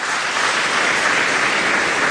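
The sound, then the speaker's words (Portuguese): A church audience applauding during a sermon, a dense, hissing wash of many hands clapping, steady and fairly loud with no pauses or individual claps standing out. “Dá um aplauso ao Senhor bem forte, meu irmão.”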